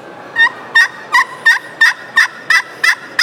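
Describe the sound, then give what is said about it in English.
Raspy turkey yelps from a friction pot call struck with the hand held open, a steady, evenly spaced run of loud, sharp calls with no talk. “Real flat, I'll open my hand up.”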